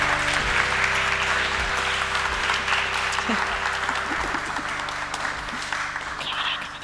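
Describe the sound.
Sustained audience applause greets three guests as they come on stage at a live event: a dense, steady wash of clapping that eases slightly toward the end.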